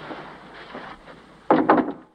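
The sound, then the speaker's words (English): A hotel room door is opened from inside: soft, muffled handling first, then a short, louder clunk and rattle of the latch and door. “opens the door from inside”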